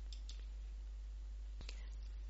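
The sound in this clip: A computer mouse clicks while someone selects items in an online search menu, giving a few faint, crisp clicks in two quick pairs over a low, steady hum.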